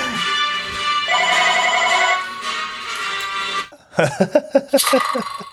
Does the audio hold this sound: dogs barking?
no